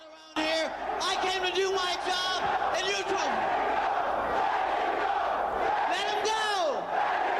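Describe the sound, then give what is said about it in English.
A wrestling crowd at a 1995 ECW event chants and roars, loud rhythmic shouted chants over a sustained wall of crowd noise. “Let him go, the crowd's chanting.”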